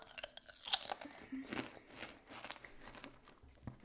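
Fat-free crisps crunch and are chewed in many quick, crackly bites, faint and close, with irregular snaps and softer mastication between them.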